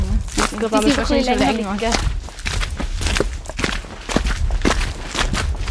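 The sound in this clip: People walk around outdoors on snowy ground in the Alpstein area, making a steady series of short footsteps while voices talk over them.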